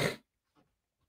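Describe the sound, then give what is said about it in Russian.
A single short, sharp cough bursts out at the start, followed by a couple of much fainter, softer sounds with quiet in between. “Извините, я пью воду, подкашливаюсь сегодня.”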